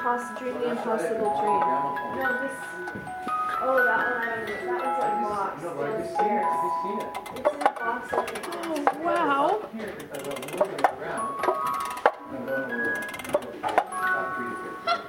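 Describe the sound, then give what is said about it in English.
Sharp ticking clicks from the crank of a slot-machine-style gramophone in distressed copper-coloured metal, a series of faint ratcheting clicks under steady talk. “And then I can take the gramophone. It's like a slot machine one. So you turn the crank.”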